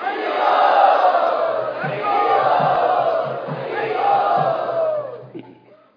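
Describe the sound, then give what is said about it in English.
A large crowd loudly chants a welcome to guests at a devotional gathering, voices swelling in repeated waves over a steady low rhythmic pulse before fading away at the end. “Let us very sincerely welcome all of our special guests by loudly chanting.”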